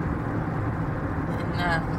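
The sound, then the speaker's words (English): Car on a desert back road outside Bakersfield: a steady, loud low rumble of engine and road noise that stays even throughout. “This is back road driving. Back road in the desert.”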